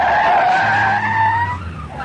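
Car tyres skid and squeal on a road in a near rear-end collision: a loud, sustained high screech lasting about two seconds, with a low rumble joining partway through.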